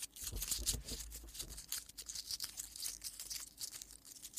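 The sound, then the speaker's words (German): A package is unpacked for an ASMR session. Soft crinkling, crumpling and tearing of packaging go on in faint, irregular bursts, with no talking. “Ja, lass mich doch mal auspacken hier, ASMR.”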